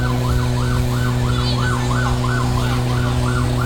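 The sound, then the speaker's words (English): An emergency vehicle siren blares during Carnival 2006 in a rapid, repeating up-and-down yelp, about eight cycles, loud and continuous over a steady low engine drone. “I'm just coordinating with our drivers to make sure that they clear a path for the emergency vehicles”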